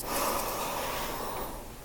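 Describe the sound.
A deep inhale through the nose during a breathing exercise, heard as a soft, airy rushing hiss that holds steady for over a second and then fades, with no talking.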